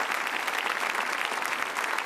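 Steady applause from an audience for a man at a formal public event, a dense, even wash of many hands clapping that holds at a constant level without a pause.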